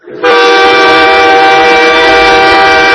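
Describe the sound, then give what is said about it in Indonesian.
A train horn sounds at a railway station: one long, loud blare that starts abruptly and holds a steady, rich tone to the end. “itu suara kereta teman-teman. Berarti kita ada di stasiun kereta.”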